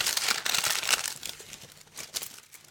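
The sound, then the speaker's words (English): Paper envelope being torn open at a comic book awards announcement, a continuous crinkling, rustling tear with several sharper rips, fairly faint and without talk. “How about if I just open up the envelope? We don't. That's fine. All right. Open the envelope.”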